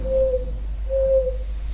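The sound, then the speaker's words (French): An old owl hoots twice at nightfall: two steady, mid-pitched tones, each about half a second long, separated by a short gap and heard alone over a faint low background. “Le dernier ululement du vieux hibou”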